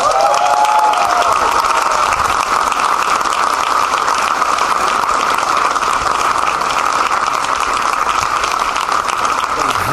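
A comedy show audience applauds and cheers loudly as comedians are welcomed onto the stage. The clapping is dense and sustained at an even level for the full length.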